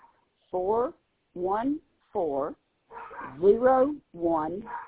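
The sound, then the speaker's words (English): A dog howls and barks in a series of short, wavering, whining cries separated by brief pauses, rising and falling in pitch and fairly faint. “Of course, my dog had to start singing.”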